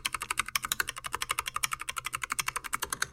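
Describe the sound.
Keyboard typing: many fast, evenly spaced keystrokes clatter in a steady rhythm, crisp and continuous throughout.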